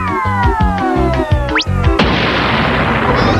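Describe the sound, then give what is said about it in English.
Cartoon ham grenades explode: whistling tones slide downward over bouncy music, then a loud blast bursts in and a noisy rumble fills the rest. “Oh no! He's throwing ham grenades! What a swine!”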